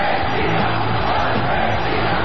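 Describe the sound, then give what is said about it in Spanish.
A football crowd shouting together in unison, linked to the 2010 World Cup in South Africa, forming a loud, unbroken roar of many voices. “Y vamos todos juntos por la tercera. Para eso Hace falta que todos gritemos al unísono.”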